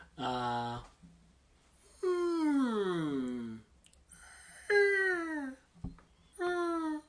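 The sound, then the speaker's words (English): A person vocally imitates a blue whale song with four low, drawn-out moaning calls, the two longer middle calls sliding downward in pitch, separated by short silent pauses. “A blue whale song sounds a little like this.”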